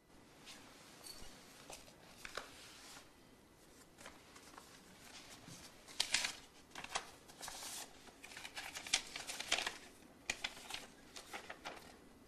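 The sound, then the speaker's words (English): Crisp paper rustling as a pink paper envelope is picked up from a hallway doormat and opened, with a few bursts of crinkling and tearing that grow busier and louder in the second half. “looks down at some letters on the mat, including a pink envelope. He picks it up and opens it.”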